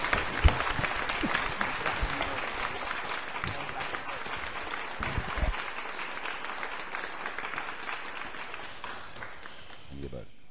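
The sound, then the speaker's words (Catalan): A crowd gives prolonged applause, a dense, unbroken clatter of many hands lasting around ten seconds and fading slightly toward the end, with a few thumps and voices rising within it. “Un aplaudiment per la Sera d'Ubagos.”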